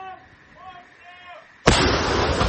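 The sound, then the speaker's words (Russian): A Ukrainian army brigade's artillery fires in support of an assault on the flanks of Bakhmut: after a quiet lull with a faint hum, one sudden loud blast erupts, and its heavy roar carries on to the end. “Это артиллерия 22-й бригады ВСУ. Она сейчас помогает украинским подразделениям, которые как раз штурмуют Бахмут с флангов.”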